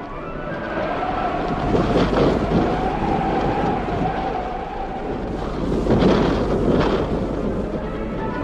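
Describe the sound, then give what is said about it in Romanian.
A thunderstorm with wind and rain makes a steady rushing, rumbling roar that swells twice into stronger gusts, moderately loud, with no voices. “numai ce se porni o furtună cu fulgere și tunete nemaipomenite.”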